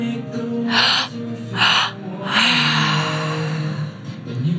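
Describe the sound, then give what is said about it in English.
Deep breathing during a guided meditation: two short, airy breaths followed by a longer, sustained exhale, soft and unhurried over a steady low tone. “We're aware of all the thoughts that want to take us away from this moment. And we just breathe.”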